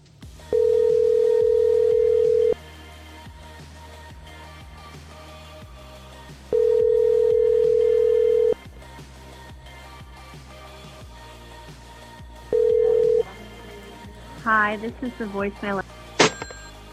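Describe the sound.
Ringback tone of an unanswered telephone call: three steady mid-pitched tones, two long and a final short cut-off one, separated by quiet gaps over a low hum, followed by a brief burst of warbling chirps.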